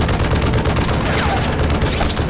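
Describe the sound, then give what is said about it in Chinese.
Sustained gunfire during reconnaissance by fire in combat: a dense, loud rattle of overlapping shots fills the whole stretch without pause, with heavy low rumble beneath. “继续射击。”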